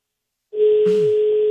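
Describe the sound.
A steady telephone tone from a call that nobody answers starts after half a second of silence and holds unbroken at one pitch to the end.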